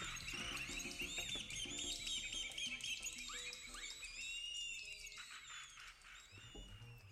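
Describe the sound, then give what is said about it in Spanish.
Distant birds singing: a dense, continuous chorus of many overlapping chirps and whistles, faint throughout, with no voices. “Oí cantar a los pájaros de lejos.”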